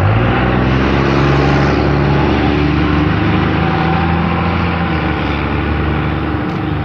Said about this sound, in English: noisy truck.